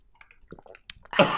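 Pink lemonade sipped through a metal straw: scattered faint clicks and small wet sounds, then a louder, breathy slurp that fills the last quarter second.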